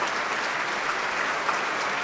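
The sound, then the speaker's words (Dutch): Audience applause after a performance of Tchaikovsky's violin concerto: dense, steady clapping from a large crowd that holds at an even level throughout, with no distinct voices. “het publiek is razend enthousiast over deze prachtige uitvoering van het vioolconcert van Tchaikovsky.”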